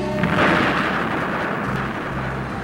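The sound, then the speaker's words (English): A spaceship collides with a Class 5 asteroid and explodes in a loud, sustained roar and deep rumble that stays dense and heavy throughout without fading. “It's collided with a Class 5 asteroid and exploded.”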